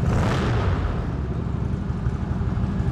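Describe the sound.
A motorcycle engine gives a loud, steady rumble with fast, throbbing low pulses under a broad roar. The sound holds constant for the whole clip with no talking.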